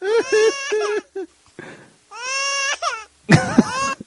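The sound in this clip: A person imitates crying with a few loud, wavering wails and sobbing bursts of voice, separated by short breaks and ending in a strained, higher cry.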